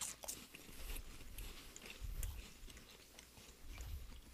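Crackers being bitten and chewed: faint, irregular crunches and soft chewing noises, with a few slightly stronger bites standing out.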